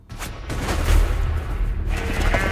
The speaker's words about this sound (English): When one of them starts towards the flock, it's suddenly shot.